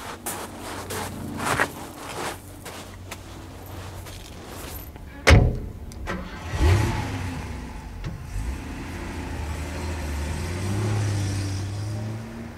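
A car door slams sharply, then the engine starts and the car drives off, its mid-pitched drone swelling and revving over the final seconds, with no voices.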